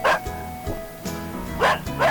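A dog barks in a few short, sharp yipping bursts spaced irregularly, with fainter whimpering sounds between them.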